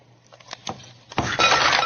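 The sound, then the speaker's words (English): Ice cubes are dumped into a glass. A few light clinks come first, then a loud, sustained clatter and rattle of cubes tumbling in, with no talk. “dump the ice cubes in here”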